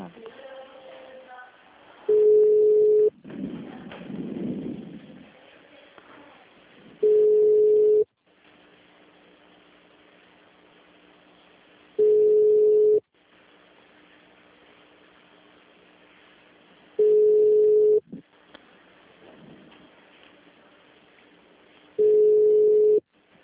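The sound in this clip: Telephone tone on a call to a busy line: five identical, loud, steady mid-pitched beeps, each about a second long and spaced roughly five seconds apart, with faint line hiss between them and a brief voice near the start.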